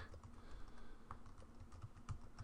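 Keys clack on a computer keyboard as a file name is typed, a quiet run of irregular clicks and taps with a few firmer strokes near the end.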